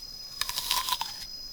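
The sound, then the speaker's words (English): A bite into a banana gives a few soft, quick crunchy bursts close together, faint against a quiet background and with no talk. “That's a really good banana. Oh, can I have a bite then?”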